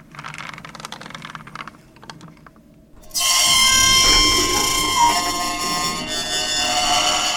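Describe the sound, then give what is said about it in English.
An old elevator's mechanism makes strange noises: faint clicks and rattles at first, then a sudden loud grinding whir with high, whining tones that lasts to the end. “It's an old elevator. It makes strange noises sometimes.”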